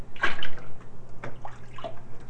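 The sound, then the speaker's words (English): Water is poured from a cup over a little boy in a bathtub, making a few soft splashes and trickles that are fairly faint and come in short, uneven bursts. “Daddy wants to dish water all over you. Wait, let Daddy. Water on you. Daddy wants to give you a bath.”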